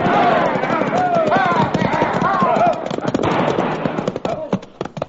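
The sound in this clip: Horses pulling a wagon, their hooves clip-clopping in a fast, steady rhythm that thins out and grows quieter toward the end.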